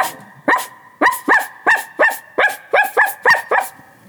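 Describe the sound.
A human voice imitates a brown dog barking, giving about ten short, sharp woofs in a quick, even rhythm. The barks are loud and stand alone, with no other talk.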